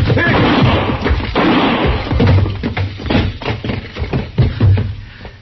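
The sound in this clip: Gunshot in a dramatized standoff between a marshal and a gunman in a doorway, loud sharp bursts mixed with many heavy thuds and knocks that come thick at first and thin out toward the end.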